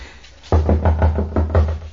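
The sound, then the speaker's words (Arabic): Knocking on a door: several rapid, evenly spaced knocks over a steady low hum. “خبط لهم على الباب”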